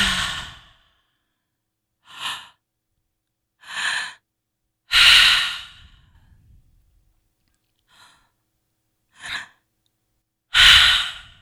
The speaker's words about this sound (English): inhale first into our belly space. It's going to sound like this. We're going to inhale into our heart space and then release the whole thing.